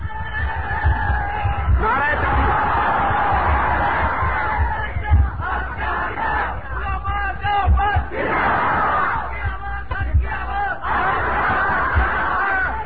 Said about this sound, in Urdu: غیور ہو تو نعرہ بلند کر کے لگاؤ